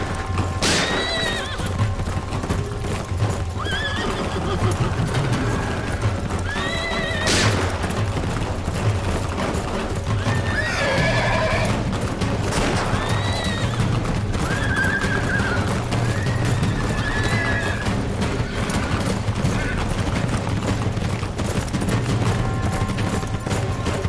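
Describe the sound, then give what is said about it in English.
A horse gallops in circles through a shootout, its hooves clopping in a steady rapid rhythm. Shrill neighs and whinnies rise again and again, and occasional sharp gunshot cracks cut through. “The rider kept galloping in circles, herding and shooting the lowlives.”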